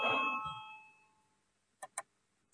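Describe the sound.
A bell rung to call a vote in parliament: one ringing tone that fades away over about a second, followed after a pause by two short, sharp clicks.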